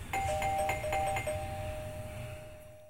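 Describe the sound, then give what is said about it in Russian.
A doorbell rings at the courtyard entrance of an art space in Kolomna's old town, up a stairway on the second floor. It gives a quick run of bright electronic chime strikes, then one steady ringing tone that slowly fades. “Вон, смотри, звонок прикольный какой.”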